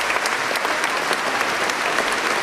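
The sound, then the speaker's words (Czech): Prolonged applause from a concert audience after the world premiere of a new composition at the Dvořákova Praha festival, a thick, steady roar of many hands clapping at full volume throughout. “Nová skladba si získala i publikum. Potlesk po její premiéře trval několik minut. Ještě déle pak diváci tleskali po skončení celého koncertu.”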